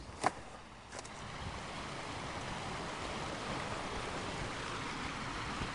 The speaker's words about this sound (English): It is being able to stand here or sit here and listen to this stream